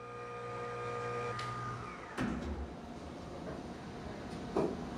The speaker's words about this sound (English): And this is the Cobalt machine. It's pretty much what the real thing looked like and how it operated and sounded. It's pretty awful.